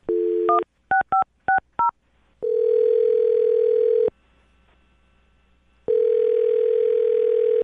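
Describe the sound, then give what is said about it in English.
Telephone keypad tones as a phone number is dialed: a quick run of short beeps, followed by two long, steady ringing tones separated by a quiet gap, loud and without talk. “I'm dialing his phone number right now”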